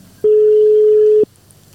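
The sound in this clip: A telephone line rings during a call to a guest, sounding as a single steady mid-pitched tone lasting about one second over a faint low hum, with no voices.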